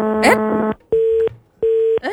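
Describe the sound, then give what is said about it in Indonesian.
A phone-in call on a radio show cuts off, and a disconnect tone sounds as two steady mid-pitched beeps with a gap between them. Brief bursts of voice come before and after the tones. “Mati. Nah, terputus sayang Nian nih. Kenapa ini sayang sekali?”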